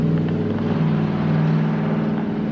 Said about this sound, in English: distracted by the very loud truck